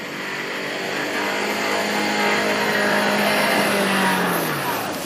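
An off-road car engine revs hard while the vehicle is stuck in mud on a rain-soaked off-road course. The loud, sustained roar holds steady throughout and dips slightly in pitch near the end.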